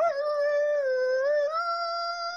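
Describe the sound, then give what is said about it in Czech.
A human voice imitates a howl at the moon with one long, sustained tone. It dips slightly, then steps up in pitch partway through and holds to the end. “To je docela obyčejné vytí na měsíc.”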